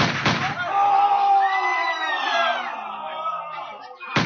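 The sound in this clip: Musket fire from the rigging into a melee on the deck of the Brownlow: a sharp crack at the start and another at the end, with a loud jumble of shouting voices in between.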